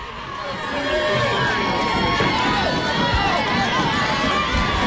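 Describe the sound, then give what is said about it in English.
Crowd noise from Dodger fans packing a baseball stadium during a game, a loud, steady wash of many voices murmuring and shouting together without a break. “Loud environment here. The Dodger fans off work and everyone here in droves.”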